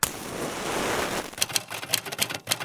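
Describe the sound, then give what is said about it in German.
Typebars of George Orwell's Remington typewriter strike the paper. A stretch of steady hiss gives way to rapid, irregular mechanical clicks and clacks, fairly faint and without voices. “Dort im Streichholzlicht können sie jeweils zwei Typenhebel ausmachen, die sich rhythmisch über das eingespannte Papier bewegen.”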